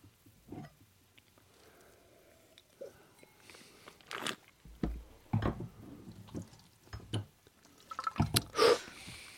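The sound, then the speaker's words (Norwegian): Wine being spat out during a blind wine tasting, heard as a few wet spurts and slurps scattered among quiet pauses, the last ones the loudest. “Og spytte. Ja, vi spytter også.”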